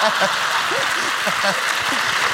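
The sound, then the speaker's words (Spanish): Audience applause on a live studio show as a guest is called up on stage: steady, thick clapping throughout, with voices calling out over it. “Venga, un aplauso.”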